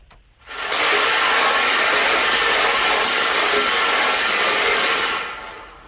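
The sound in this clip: A lottery ball machine spinning its balls during a draw gives a loud, steady rattling whir that starts abruptly, holds for about five seconds and eases off at the end.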